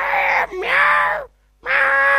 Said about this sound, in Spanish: Y arrancan las peleas que vos decís, señora, ¿qué le pasa? Son tremendas las peleas de gatos.